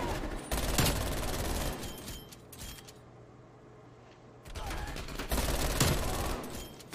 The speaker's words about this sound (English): There he goes again with that 75 round clip of his.